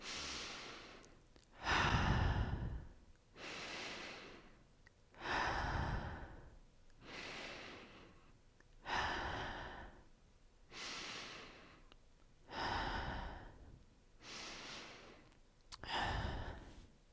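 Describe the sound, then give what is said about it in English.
Slow, deep breaths drawn in through the nose and let out through the mouth repeat in a steady, even rhythm, each breath a soft airy rush that swells and fades, with no talking over it. “take 5 deep breaths with me. In through your nose and out through your mouth.”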